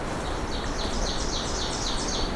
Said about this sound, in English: one more magnolia warbler territory than I knew about before